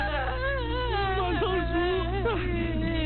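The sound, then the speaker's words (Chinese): Tearful wailing from a grieving aunt: one sustained, quavering voice with pitch that bends and wobbles, fairly loud and continuous for the whole stretch over a low steady hum. “别哭。”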